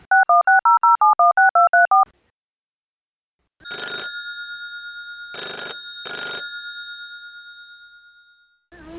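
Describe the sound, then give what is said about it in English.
Telephone keypad tones dial a call in a quick, even string, then a silent gap before three bright ringing bursts of a phone bell, the last two close together, ending with a short click as the line opens. “I'm gonna give her a call and hopefully kick things off.”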